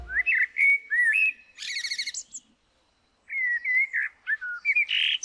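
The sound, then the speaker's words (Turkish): A common blackbird sings at dawn, loud and alone. Clear fluting whistled phrases break into a burst of rapid buzzy twittering, then come a short silence and more warbled phrases ending in a harsh, scratchy chirp. “Dinlediğiniz bir kara tavuğun şarkısıydı.”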